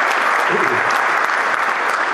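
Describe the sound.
Audience applause welcoming a guest at a live event: dense, steady clapping from many hands, loud and even throughout the two seconds without pause.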